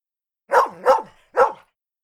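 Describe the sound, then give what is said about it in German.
A dog barks three times, two sharp mid-pitched barks close together and then a third after a short pause, each loud and clear against silence. “Hundegebell.”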